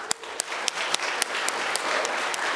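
Applause from an audience at a Friday evening fundraiser: dense, steady clapping with a few sharp, louder individual claps standing out above the wash of hands.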